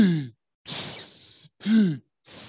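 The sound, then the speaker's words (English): A voice imitates sea animals breathing at the surface as they circle and feed on schools of fish, giving a few breathy, sighing exhales, some with a low, groaning voiced tone, separated by short silences. “I was able to paddle out to them and get close enough to hear them breathe, and they go,”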